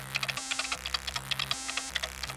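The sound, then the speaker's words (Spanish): A password is typed on a computer keyboard in a rapid, uneven patter of light keystrokes. The clicks run throughout over a low, pulsing electronic drone. “Teclear password.”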